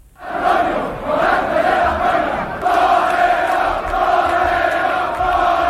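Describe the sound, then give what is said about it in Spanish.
Street crowd in Seville clamors as bullfighter Morante de la Puebla is carried on shoulders toward the Hotel Colón after a Corpus bullfight, a loud, sustained roar of many voices with chanting tones running through it. “Este es el sonido de anoche camino el diestro a hombros del Hotel Colón.”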